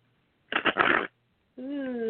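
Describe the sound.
A brief riffle of tarot cards being shuffled lasts about half a second. After a short pause, a voice begins.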